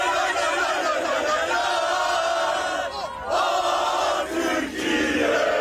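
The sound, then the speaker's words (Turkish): Turkish football fans cheer and chant at their national team's hotel in Vancouver as they light flares. A dense, continuous crowd roar of shouting and chanting dips briefly twice. “Türk futbol severler kafile otele ulaştığında meşaleleri yaktı, tezahüratlar yaptı.”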